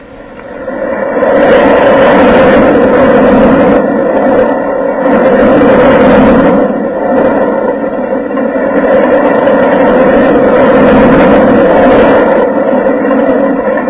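A roller coaster ride on the Whirlwind rumbles as a loud, continuous droning roar for nearly fourteen seconds, swelling and easing slightly in slow waves with no voices.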